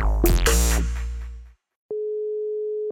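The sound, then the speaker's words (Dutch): A telephone call's ringing tone sounds as one steady, mid-pitched tone lasting about a second. It follows a loud, sustained chord-like sound that fades away, and no one speaks. “Ik ga even met haar bellen.”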